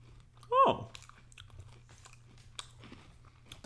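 Chewing of a crunchy apple cinnamon snack: a few faint, scattered crunches and soft mouth clicks over a low steady hum, quiet overall.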